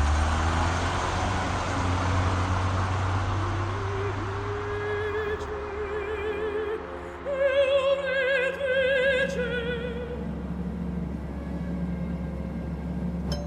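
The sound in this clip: Steady engine and road rumble of a car driving fast through New York city traffic: a continuous low, loud drone with faint higher tones above and a short dip in level partway through.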